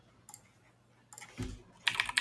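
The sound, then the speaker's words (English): Typing on a computer keyboard: faint, irregular clusters of light key clicks, sparse at first, then a denser, louder flurry of keystrokes near the end. “sorry, I'm gonna type.”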